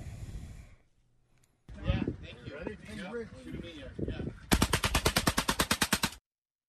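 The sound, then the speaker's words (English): A fully automatic shotgun fed from a 20-round box magazine fires a fast, evenly spaced burst of many loud shots, coming right after a stretch of talk. “That's actually a fully automatic shotgun. And some crazy guy appeared a few moments later with a massive magazine. I think it was like a 20-round magazine. And it worked. Let's play that.”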